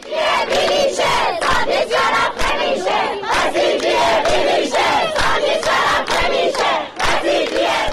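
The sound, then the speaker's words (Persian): Students at Razi University in Kermanshah chant together at a protest rally: loud, rhythmic bursts of many voices shouting in unison, repeating steadily with brief dips between phrases. “دانشجویان دانشگاه رازی کرمانشاه دست به تجمعهای اعتراضی زدند. صدای دانشجویان دانشگاه رازی کرمانشاه.”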